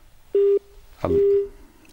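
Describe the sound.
A telephone busy tone sounds after a dropped call-in line: two short, steady beeps at one fixed pitch, the second overlapped by a brief voice-like burst.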